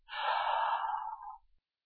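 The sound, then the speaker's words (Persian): A single deep breath taken by a patient during a medical examination: one long, breathy rush lasting over a second, heard alone and fading out at the end. “نفس بکشید”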